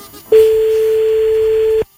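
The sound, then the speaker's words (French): A single steady telephone tone sounds as a call is placed to reach a contest winner. It holds one even pitch for about a second and a half, then cuts off, with no talk over it. “on appelle maintenant le gagnant ou la gagnante de la colle”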